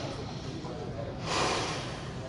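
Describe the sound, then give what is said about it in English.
A deep breath is exhaled onto a Torah scroll as a single soft, airy whoosh that swells midway and then trails off, faint above a constant background hiss. “let's say I'm going to breathe on the sefer. Watch how I breathe on the sefer.”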